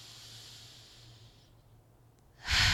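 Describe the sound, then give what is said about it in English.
A deep breath in and out: a soft, airy hiss of inhalation gives way to a brief quiet pause, then a short, louder rush of exhaled air at the end. “Take a moment for you. Let's breathe. One more.”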